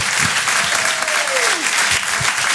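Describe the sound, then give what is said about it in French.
Audience applause at a comedy club as the next comic is introduced: dense, steady clapping that holds for the whole stretch, with a single whistle sliding downward in pitch partway through. “Faites un maximum de bruit et encouragez, s'il vous plaît, PV sur Rire et Chanson.”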